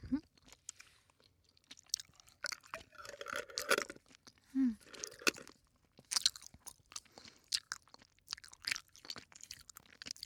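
Close-up chewing of a crunchy pineapple-flavored snack, with many quiet, irregular crunches and bites and a short low hum midway.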